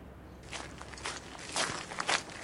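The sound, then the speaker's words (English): Footsteps of a small group walking through a tidy garden toward a bungalow: soft, uneven steps, faint and without talk. “After a 15-minute walk, the gang arrives at a rustic, modestly sized bungalow. They walk through the tidy garden and arrive at its plain, unassuming door.”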